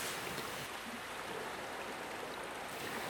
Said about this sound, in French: je m'imagine euh, au bord de l'eau euh, assis sur un rocher en plein jour. Et puis il y a des vagues qui tapent contre les rochers.